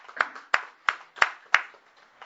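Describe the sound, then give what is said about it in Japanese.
Hand clapping to celebrate a child's eighth birthday: five sharp, evenly spaced claps stand out, with fainter clapping between them. “8歳ですかね、お誕生日を迎えられましたので、盛大な拍手で”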